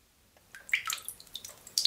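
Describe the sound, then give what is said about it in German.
Water drips inside an ice cave in the Untersberg mountain. A few faint, bright, high-pitched drops fall at irregular intervals, with near silence between them and a slightly louder drop at the end. “Es tropft an vielen Stellen in der Eishöhle im Untersberg.”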